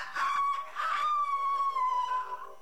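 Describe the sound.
A rooster crows in a single drawn-out call that holds a steady, tonal pitch for over two seconds, loud and alone, with no voices.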